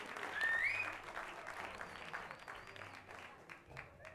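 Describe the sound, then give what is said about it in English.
Applause from a cabaret performance crowd, a dense steady wash of clapping that swells early and then holds at a fairly even level, with a faint voice over it. “A big applause again for Elektra and Medusa!”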